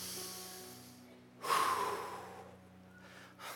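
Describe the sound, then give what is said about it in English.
A group of people take a deep breath together, a broad airy rush that swells suddenly, then slowly fades, with a quieter breath near the end over a low steady hum. “So everybody take a deep breath with me.”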